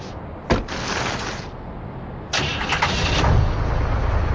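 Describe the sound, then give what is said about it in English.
Snowmobile engine starting in the video game Resident Evil: Code Veronica X: a sharp ignition burst and steady running hum, then a louder catch that builds into a full, rumbling idle. “We did it! We're finally out! Look! There's a snowmobile over there!”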